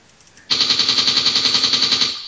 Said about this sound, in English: I use machine gun on everyone.